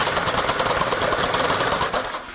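A weaving machine runs with a rapid, steady mechanical clatter, loud and continuous, dipping briefly just before it ends.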